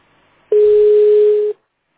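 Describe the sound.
A single steady telephone tone sounds while a call is transferred to an operator at a clinic. It is loud and unbroken, lasts about one second, starts and stops abruptly, and plays alone with no voices.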